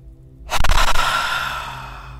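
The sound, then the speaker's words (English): A loud, audible exhale during a guided meditation breathing exercise: a sudden breathy rush of air after a quiet start that slowly fades over the next two seconds. “Do one more of those, nice audible exhale,”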